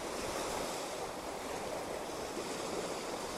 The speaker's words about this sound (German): Ich habe Sand in den Schuhen und stehe doch trockenen Fußes am Meer.